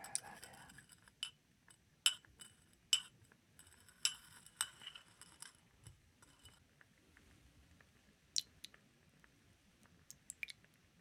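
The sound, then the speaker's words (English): A spoon clinks lightly against a glass while sugar is added to sweet tea. A scattered string of faint, sharp ticks and taps sits over near silence. “So I'll just add just a little bit of sugar. It's a pretty sweet tea.”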